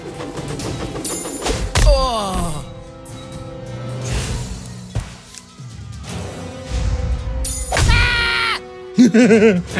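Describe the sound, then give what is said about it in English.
Heavy thuds and whacks as a downed enemy is kicked in a video game fight against elves; a few hard impacts land over game music and sound effects. “I kicked the guy while he was down.”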